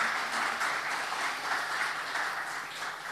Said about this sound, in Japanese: もう一回イエス様にですね感謝の拍手しましょう。